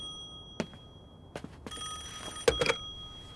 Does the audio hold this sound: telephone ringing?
yes